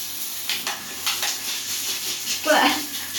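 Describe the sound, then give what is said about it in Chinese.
Shower water is turned on and runs as a steady, bright hiss throughout. A short voice-like sound rises briefly over the spray near the end. “你让一下，我把水打开。”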